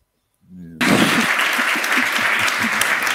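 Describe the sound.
A loud, warm round of audience applause bursts in abruptly at a stage comedy show just after a brief voice, then holds as a thick, steady clatter of hands to the end.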